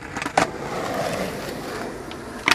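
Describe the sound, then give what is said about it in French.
A skateboard ollie on a cycle path along the Liane starts with a sharp pop of the board, followed by a rolling rumble of wheels and a clacking landing at the end. “Là, j'ai juste fait un ollie, donc c'est un saut basique.”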